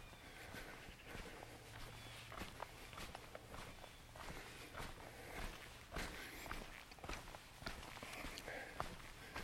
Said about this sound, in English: So I'm just walking at the boundary of the property at the moment, walking through really lovely Scots pine plantation.